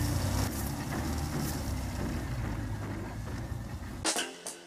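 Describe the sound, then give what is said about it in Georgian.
A Czech Kaipan roadster sports car has its engine running at a steady, dense low rumble. Near the end the low drone drops away, leaving a few brief knocks. “ჩემს მანქანას კაიპანი ქვია. ეს ჩეხური სპორტული ავტომობილების იშვიათი მარკაა. კაიპანი როდსტერია.”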